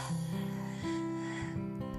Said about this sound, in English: Now, let's get started by taking a deep breath in.